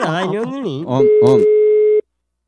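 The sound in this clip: A telephone ringing tone sounds as a steady, single-pitched beep lasting about a second, with a voice overlapping its start before the line cuts to silence.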